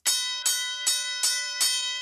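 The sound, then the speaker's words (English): Five evenly spaced strikes of a bell ring out alone, each bright metallic hit sustaining a shimmering tone that carries into the next. “So I've got my buzzer and the bell”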